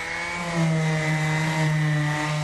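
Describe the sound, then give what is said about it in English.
Orbital sander running across gleaming metal panels with 220-grit sandpaper: a loud, continuous motor whine with a buzzing, slightly wavering pitch that swells a little after the start and holds steady, with no voices. “We've got an orbiter sander and then a square sander.”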